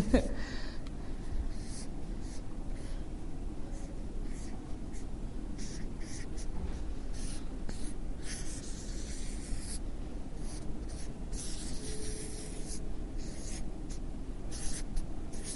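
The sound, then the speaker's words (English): Scratchy strokes of someone drawing a picture of a seed, a sapling and a tree, a faint, steady scraping that runs without break through the whole stretch. “So in identifying, I'm going to draw a picture.”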